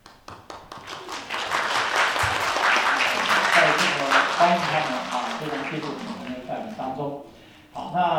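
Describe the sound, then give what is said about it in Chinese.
A church audience applauds to welcome newly baptized members during a service. Brisk, dense clapping rises quickly and holds for several seconds while a person speaks over it, then fades before a brief final burst. “所以我们大家一起拍手，我们欢迎你们的。”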